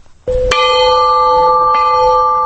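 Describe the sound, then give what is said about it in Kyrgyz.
A 50 kg Russian-made peace bell, decorated with Kyrgyz national ornaments, is struck at a memorial ceremony. It gives a loud metallic clang, then a steady, sustained ring with clear overtones. “Тынчтык коңгуроосунун үнү аны алгачкы жолу президент Алмазбек Атамбаев какты. Орусияда жасалган 50 килограмм салмактагы коңгуроо”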